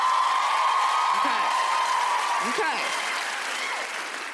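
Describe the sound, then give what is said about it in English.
Audience cheering and applauding at a stand-up comedy show, a steady wash of clapping with a couple of short shouted whoops, easing slightly in loudness toward the end. “Some of you cheered.”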